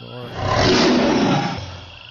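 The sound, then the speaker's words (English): A tiger roars once, a rough, rumbling roar that swells in loudness, holds, then fades. It is heard alone. “Grow the jungle more and more to help the tigers roar.”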